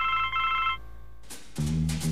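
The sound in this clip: A mobile phone rings with a bright electronic tone, then after a short pause a lower-pitched tone pattern follows, moderately loud with no voices.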